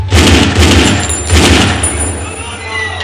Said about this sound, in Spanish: Dispara al hombre a bocajarro y por la espalda.